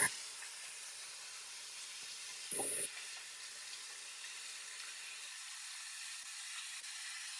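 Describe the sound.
Running water hisses faintly and steadily as hands are washed after handling eggs while baking, with one brief, slightly louder splash partway through.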